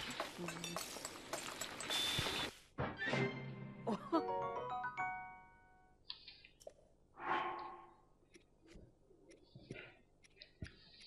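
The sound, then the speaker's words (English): Cooking in the video game Breath of the Wild produces a run of bright clinks and chiming tones, with ringing tonal jingles that fade, then a few scattered sparkling notes later. “I'm just cooking stuff.”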